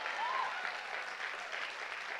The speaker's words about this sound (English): You're giving me a golf clap like you're not understanding.